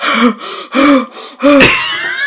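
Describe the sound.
Shocked, heavy mouth breathing imitated by a voice: three loud, breathy voiced gasps in a steady rhythm, each swelling and fading, with no words spoken.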